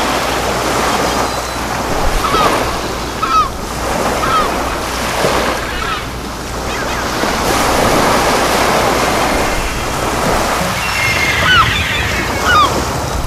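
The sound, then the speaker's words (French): Waves crashing and wind gusting against the black rocks of a wild headland on Belle-Île in Brittany, a continuous roaring surf with buffeting wind noise and a few louder surges rising and falling throughout. “Vous rêviez de sensations fortes, de rochers noirs battus par les vagues et les vents, vous les aurez.”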